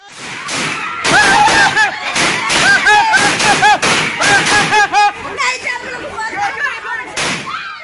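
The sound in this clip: Gunfire as soldiers shoot at a crowd of people: many loud, sharp bursts of cracks and thuds that run throughout, mixed with raised, shouting voices.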